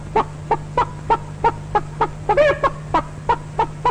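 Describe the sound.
Chickens cluck in a henhouse on a hot afternoon, a regular series of many short, sharp clucks evenly spaced. One louder, drawn-out squawk breaks the rhythm about midway.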